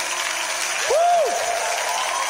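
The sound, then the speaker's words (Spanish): An audience applauds at a church service, a steady, dense wash of clapping that continues through the whole clip. “Porque un aplauso con más fuerza para el Señor esta tarde aquí. ¡Vamos a aplaudir!”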